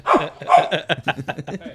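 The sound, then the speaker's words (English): A herding dog barking with attitude: two fuller barks, then a quick run of many sharp, higher yips and barks in a fast, choppy rhythm. “She does have an attitude with the bark that I feel like I'm trying to nip it in the bud”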